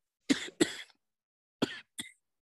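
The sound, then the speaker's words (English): Four coughs: two sharp bursts in quick succession, a pause, then two more, each a short, harsh expulsion with silence between. “sorry about that. I had to cough.”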